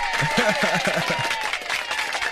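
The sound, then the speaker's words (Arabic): A crowd gives dense, steady applause, a bright patter of many hands clapping throughout, with a talking voice heard over it. “برافو عليك. لا بيطلع لك زقفة.”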